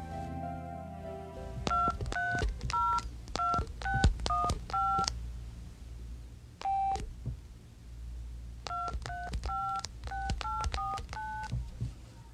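Telephone keypad dialing tones: a rapid run of short two-tone beeps, a pause broken by a single tone, then another quick run of beeps, all fairly faint.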